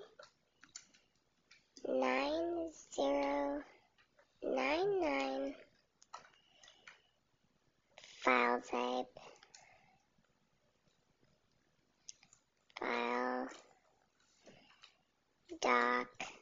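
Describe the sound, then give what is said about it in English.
Computer keyboard typing, with light clicking keystrokes scattered through pauses between bursts of someone talking. “We'll type in U. S-P”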